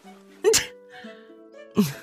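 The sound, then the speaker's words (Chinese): A sharp human sneeze, as someone catches a strong whiff of perfumed hair balm, comes in two loud breathy bursts about a second apart, with faint voiced tones between them. “林妙妙打了个喷嚏，捂着鼻子不耐烦道”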